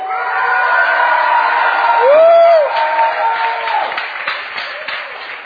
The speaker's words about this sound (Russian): Okay, come on, Prague, shout.